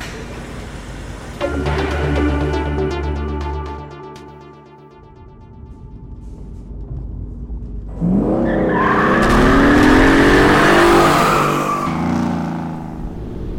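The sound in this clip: Sports car engine, built from a blueprint: a steady low engine drone first, then a louder stretch of wavering, rising and falling whining tones with a squealing edge, with no voices.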